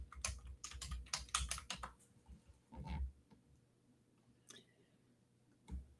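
Clicky typing on a computer keyboard as a search word is entered: a quick flurry of key presses for about two seconds, then a few scattered, separate keystrokes. The typing is fairly soft, with faint background noise between presses.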